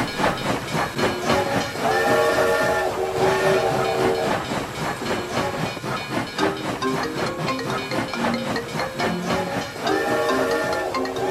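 A steam train's whistle sound effect: two long, bright, multi-toned whistle blasts, one early and one at the end. Between them a continuous loud rumble and hiss of the moving train carries on.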